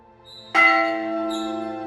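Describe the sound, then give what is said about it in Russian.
A museum bell is struck once by a visitor; a faint ring lingers before the single loud strike, then a bright, sustained metallic tone hums on steadily to the end. “А еще в этом зале есть специальные музейные колокола. Почему музейные? Ну потому что ударить в них могут только посетители музея.”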